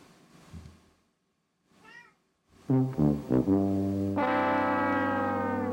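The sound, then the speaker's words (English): A hungry cat meows: a faint chirp, then a quick run of short meows, ending in one long, loud, drawn-out meow. “I thought you meowed. No, that's a hungry kitty. That's a hungry kitty.”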